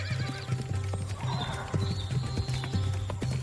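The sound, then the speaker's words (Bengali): Horse hooves clip-clop in a steady rhythm as a horse is ridden, the hoof strikes firm and evenly spaced throughout, with a brief whinny near the start. “তোকে একটা ঘোড়ায় তুলে নেবে আমার লোক, তুই তার সঙ্গেই যাবি।”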